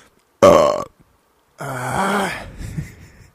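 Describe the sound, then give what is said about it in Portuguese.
Two loud burps, the first short and abrupt, the second longer and drawn out with a rough, croaking tail. “Ou não, não vou editar também, vai, fica o meu arroto aí.”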